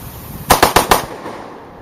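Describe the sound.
A rifle fitted with a bump stock fires a rapid burst of four shots in quick, even succession, loud and sharp, followed by fading background noise.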